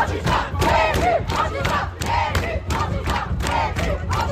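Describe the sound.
Protesters chant in front of the Bellevue school, a loud crowd shouting in a steady, regular pulse of repeated beats that continues without a break.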